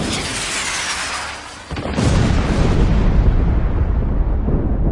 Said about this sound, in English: And there were noises, thunderings, lightning, and an earthquake.